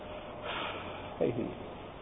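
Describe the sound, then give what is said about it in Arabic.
An exasperated 'uff' exhale, one short breathy puff with a soft voiced onset that rises briefly over faint background hiss and fades within a fraction of a second. “شو هي أف؟ أف زفير، صوت مرتفع،”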